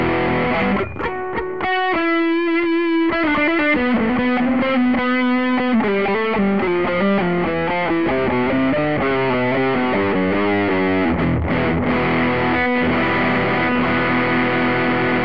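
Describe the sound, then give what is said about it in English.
Electric guitar through a drive pedal with the gain turned all the way up, giving a loud, heavily distorted tone. It plays a long, continuous run of sustained notes that shift in pitch, with no voices. “Turn the drive pedal's gain all the way up. See what happens.”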